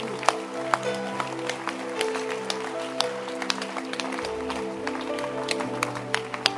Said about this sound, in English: Okay, clap your hands. You can clap your hands.